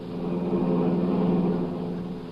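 Car engine sound effect for a radio comedy, a car driving along: a steady mid-pitched rumbling drone that swells slightly, then eases, with no talk over it.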